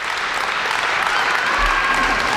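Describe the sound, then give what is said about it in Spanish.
Applause from a crowd greeting an arrival at the entrance of a trial in France: dense, steady clapping that holds at an even level for the whole stretch. “Son los aplausos hoy en Francia a Gisèle Pelicot”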